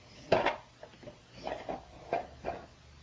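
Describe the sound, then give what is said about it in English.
Kitchen clatter as a lid is set on a pot among other dishes: a handful of light, uneven knocks and clinks, the first sharpest, fairly faint with no talk over them. “Okay, put it in. And put the lid on. Can you do it? Put it on.”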